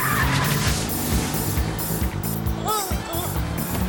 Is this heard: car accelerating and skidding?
yes